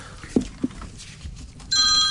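A telephone rings with a bright, high electronic trill that starts late and carries to the end. Before it come a couple of faint knocks over quiet background.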